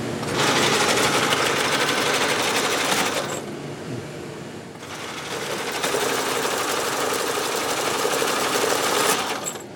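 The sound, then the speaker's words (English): An IBM 1401 punch card reader at a computer history museum, grabbing and feeding cards: a loud, rapid, steady mechanical clatter that softens for about a second and a half midway, then resumes at full pace. “That's the sound of those little shoes or knives grabbing the cards and sliding them in.”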